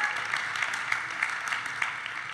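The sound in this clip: A studio audience applauds with steady, moderately loud clapping that runs evenly through the whole stretch without a clear peak or fade.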